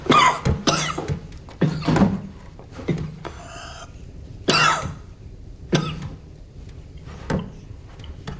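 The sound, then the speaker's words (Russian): A man coughing as a piece of cotton wool is held to his bruised face: many harsh, raspy coughs in an uneven series of sharp bursts, some close together and some with short pauses between. “К лицу Володина подносят кусок ваты. Володин кашляет.”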